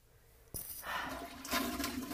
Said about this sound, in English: I'm just gonna flush this.